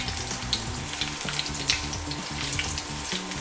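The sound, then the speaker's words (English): Food sizzling in hot oil as it marinates, a steady, busy crackle and hiss that runs the whole time, with no voices. “So we're gonna go ahead and let that marinate in the oil for a minute.”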